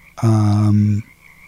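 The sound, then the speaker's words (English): A frog gives one loud, sustained croak, a low buzzy tone with strong harmonics lasting under a second, followed by quiet. “I'm hearing mostly frogs.”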